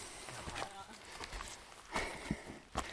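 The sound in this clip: Footsteps of people running, a few irregular thuds and scuffs with voices talking over them.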